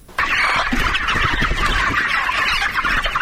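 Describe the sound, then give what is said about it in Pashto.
Chickens clucking on a poultry farm in the Bidak area near Tarinkot city: a dense, continuous chorus of overlapping clucks and cackles from many birds, loud and steady throughout. “دا د ترینکوټ ښار اړوند د بيداک په سیمه کې د نعمت الله حکیار د چرګانو فارم دی”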